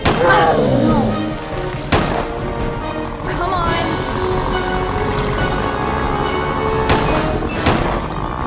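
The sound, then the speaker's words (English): Gunshots from a gun: a few sharp, loud bangs stand out over a dense, continuous rumbling background. “It was my first time using a gun. I could see there was only one bullet left.”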